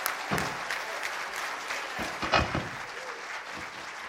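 Applause from the audience at Hiram First Baptist Church welcoming a bass player and a pianist: sustained, even clapping throughout, with a few louder swells.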